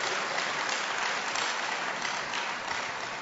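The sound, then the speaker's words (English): Applause from a church audience welcoming a visiting guest at an evening worship service in Accra: dense, steady clapping that holds at an even level for the whole stretch, with no pauses. “Let's put our hands together for him once again.”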